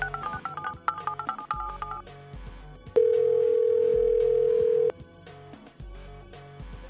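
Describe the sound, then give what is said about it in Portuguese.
A phone call being dialed and ringing out: a few short tones first, then a single long, steady ringback tone of about two seconds, heard over quieter background sounds. “Mas vamos lá, chamando o Léo.”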